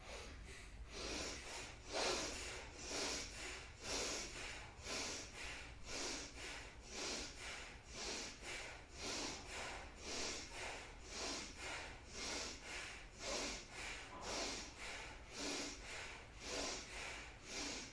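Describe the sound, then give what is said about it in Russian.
Bhastrika bellows breathing, a yoga breath done with the shoulders moving: many quick, forceful in-and-out breaths in a steady, even rhythm, soft and airy, continuing without pause. “Дышим бхастрику с плечами.”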